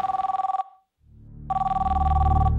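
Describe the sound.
Telephone ringing with an incoming call: two bursts of a rapidly trilling electronic ring, a short one and a longer one, with a low rumble filling the pause between them.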